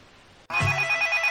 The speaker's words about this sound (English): Marin, take your phone and answer it, man.